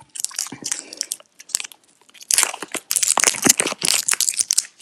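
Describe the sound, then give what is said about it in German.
Crinkling and crackling of a snack package being opened for a tasting, with bursts of rustling plastic, a brief lull, then louder, denser crumpling that continues to the end. “Okay, los. Auspacken.”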